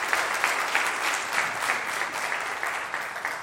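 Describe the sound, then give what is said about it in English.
Audience applause for graduating seniors: a dense, even patter of many hands clapping throughout, moderately loud and steady, with no voices rising above it. “Could you give these guys a hand, and then I'm going to pray for them. But congratulations on all your hard work.”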